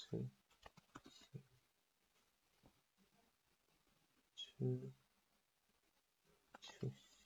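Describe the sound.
Chinese text being typed on a computer keyboard: soft, scattered key clicks and clatter, with a quiet voice murmuring in a few places.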